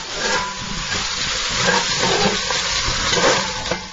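A pot cooking over a blue flame is stirred again and again, giving a steady hiss with soft scraping and bubbling under continuous, fairly even noise, with no voices.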